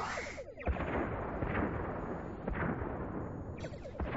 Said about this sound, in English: Fire on all enemy ships. One photon each should do. Let's not waste ammunition. Target locked and acquired on all warbirds. Firing.